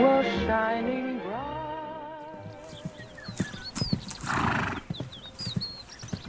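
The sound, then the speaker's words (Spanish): A horse gives a loud whinny at the start, then hooves clip-clop in an uneven rhythm as horses are ridden through the countryside. “me encanta cabalgar con usted por la campiña”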